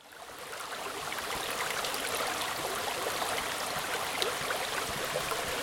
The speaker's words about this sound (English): That's a sound of a stream that happens to be flowing through the wood.